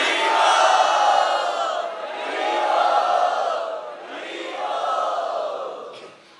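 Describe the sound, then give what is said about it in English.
A crowd loudly chants "Hari Bol" in welcome at a Sunday festival, the massed voices surging in three long, roaring swells before trailing off at the end. “Let us show our gratitude and offer our welcome to my dear God brother Sarvabhauma Prabhu by very loudly chanting Hari Bol.”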